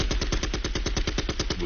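Gunshot sound effect, a rapid burst of many evenly spaced shots in a fast, machine-gun-like rhythm, loud and unbroken with no voices.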